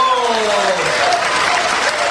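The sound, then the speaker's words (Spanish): Applause for a band: dense, steady clapping from a crowd that stays loud and even from start to finish, with no pauses. “Un aplauso.”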